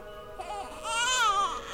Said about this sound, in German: Zum Vorschein kam ein Menschenkind, welches durch die Nässe und der Kälte dieser Nacht zu weinen begann.